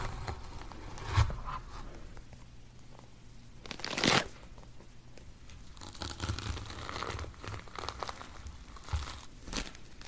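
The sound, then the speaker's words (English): Cleaning a pumpkin and scooping out its seeds: soft, irregular scraping and wet crunching of flesh, with a few louder crinkly bursts. “We'll need to clean our pumpkin and remove the seeds from it.”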